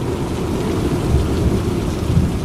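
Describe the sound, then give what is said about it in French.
Heavy rain falls in a thunderstorm as a dense, steady roar. A deep rumble runs through it for the whole stretch, with no voices. “Il y a maintenant des éclairs qui zèbrent le ciel. Le ciel est noir, un noir d'encre. Et la pluie se met à tomber comme un rideau.”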